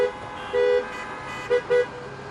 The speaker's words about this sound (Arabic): تكفى طق له هرن يا معود